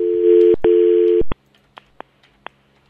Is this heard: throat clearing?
no